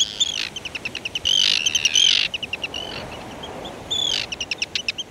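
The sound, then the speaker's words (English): Arctic tern calls: harsh, high rasping cries mixed with rapid runs of short, clipped notes, many in all, with longer drawn-out screeches near the middle and again toward the end. “One of the world champions of long-distance migration is the Arctic tern.”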